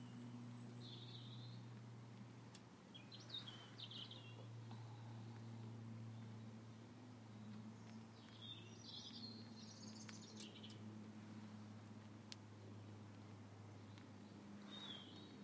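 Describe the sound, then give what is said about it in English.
Birds singing their last songs in the evening before dusk: scattered short, high chirps and trills over a steady low drone of distant traffic and an aeroplane. “It's an aeroplane, hear the traffic in the distance, and just hear the birds singing the last little songs before they go to bed.”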